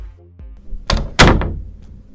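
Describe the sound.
A door being opened for a visitor gives two heavy thuds close together after a faint low rumble, then a short fading noise.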